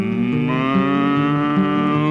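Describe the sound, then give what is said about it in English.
A long, loud cow moo holds for about two seconds in a children's farm-animal song, layered over steady, bright backing music. “I had me a cow, and the cow pleased me, and I fed my cow on the yonder tree, and the cow went”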